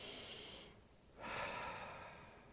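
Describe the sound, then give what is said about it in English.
A group taking a deep breath together, heard as a faint, airy rush of inhaled air, a brief dip, then a fuller, longer exhale that slowly fades, with no speech. “Thank you, God, for that breath. You just gave us air to breathe.”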